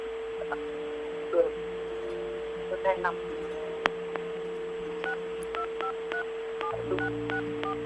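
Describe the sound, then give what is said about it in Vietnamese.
Telephone keypad tones as phone buttons are pressed during a call: a quick run of many short, evenly spaced beeps in the second half, faint over a steady low hum. “Linh đang nhấn điện thoại.”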